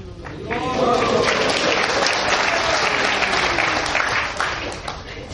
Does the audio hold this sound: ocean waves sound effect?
no